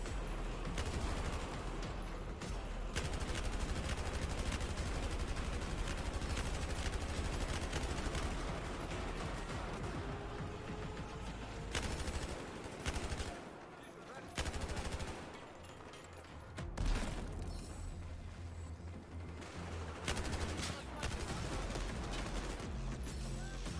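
Automatic gunfire in the video game Battlefield 4 during infantry combat: dense, rapid bursts of shots that run almost continuously, with a few short dips and pauses between volleys.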